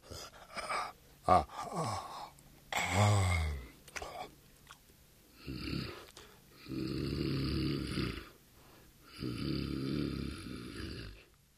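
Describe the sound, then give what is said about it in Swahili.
Loud snoring of a lion dozing off by a fire on a cold day, with a few long, rasping snores in the second half after several shorter breathy gasps and yawn-like sounds. “Simba alianza kupiga miayo, kukoroma kwa sauti na hata kuota”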